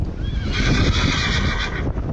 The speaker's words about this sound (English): as have a number of horses that were moved into travel trailers for a trip to safer stables